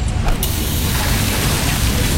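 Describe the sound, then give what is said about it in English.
A hydraulic hose bursts with a sharp, loud pop, followed by a strong continuous rushing hiss that stays loud to the end. “Oh, busted hose. This will cost me time and money, and take forever to get fixed.”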